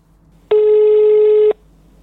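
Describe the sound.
Telephone ringback tone from a call placed back: a single steady, buzzing electronic tone about one second long that starts and stops abruptly, heard alone against a faint hum.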